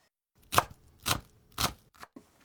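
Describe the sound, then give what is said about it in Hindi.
Chopping an onion finely into small 3 mm square pieces: three firm, evenly spaced cuts followed by two quicker, lighter taps, crisp but quiet, with no voices. “सबसे पहले प्याज को महीन काटना है, इसके लिए उसे 3 मिलीमीटर के छोटे छोटे चौकोर टुकड़ों में काट लीजिए।”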